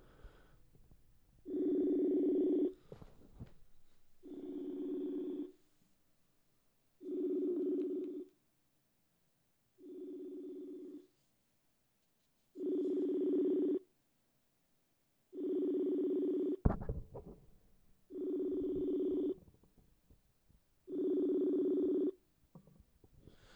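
A telephone ringback tone plays while a caller waits for an answer: eight long, low, buzzing rings, evenly spaced and separated by silent gaps. There is no talk.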